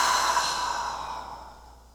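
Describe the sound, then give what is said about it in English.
A deep breath out during a guided heart-centred meditation: a soft, airy exhale with a breathy hiss that fades steadily over about two seconds and is heard alone. “And just take a deep breath in and a deep breath out.”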